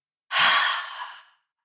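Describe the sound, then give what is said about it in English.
A single open-mouthed exhale during a guided meditation: a breathy rush of air lasting about a second that starts strong and tapers off steadily, heard alone with no talking. “Then opening your mouth and exhaling and releasing.”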